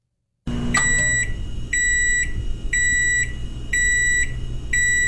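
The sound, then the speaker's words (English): Electronic beeping from a microwave oven that keeps sounding after its door has been opened: five evenly spaced bursts of high, bright beeps over a steady low background hum. “Microwaves that keep beeping after you've already opened the door. That is really annoying.”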